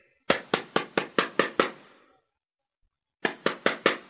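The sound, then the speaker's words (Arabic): Knocking on a locked house door by someone shut out: a quick run of seven sharp raps, a pause of over a second, then four more raps in the same brisk rhythm. “هيا جاب ربي هشام الداخل تو ندق عليه ويحلي الباب.”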